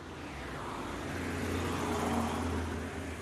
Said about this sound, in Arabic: ما هذا الضجيج؟ كل هذه سيارات؟